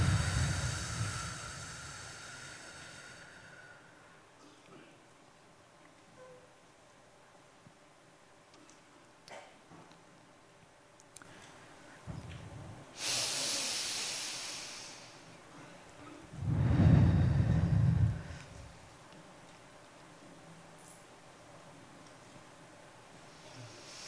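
Slow, deep exhales from a guided breathing exercise. A few long, breathy hissing releases of air rise out of a quiet, low background, with no talking.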